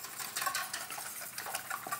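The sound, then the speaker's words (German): A whisk stirs a mixture for a tortilla, producing faint, continuous rapid scraping and light clinking against a bowl without any speech. “So, und wenn dieses jetzt hier vermischt ist, dann kommt Kartoffeln, Rauke mit Zwiebeln hier rein.”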